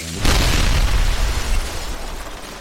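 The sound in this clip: An explosion sound effect follows a burning fuse: a single sudden, deep boom bursts out and then rumbles on, broad and heavy, slowly fading away over about two seconds.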